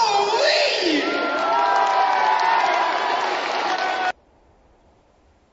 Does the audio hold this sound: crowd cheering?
yes